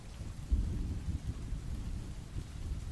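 Rain falls outside as a faint, steady wash, with low, rolling rumbles of thunder swelling and fading beneath it.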